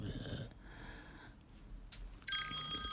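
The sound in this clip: A telephone starts ringing during a live broadcast, a bright electronic ringtone that comes in abruptly near the end and holds steady, after a stretch of faint breathy sniffs and low background noise.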